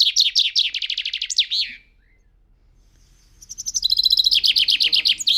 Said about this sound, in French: On peut l'écouter, je pense que tu peux le reconnaître. Enfin, qu'on peut le reconnaître. Bah, le rouge-gorge.